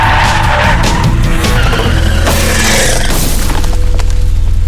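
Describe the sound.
Car tires skid loudly through a handbrake turn, a harsh continuous screech layered over a deep engine roar, with no talking.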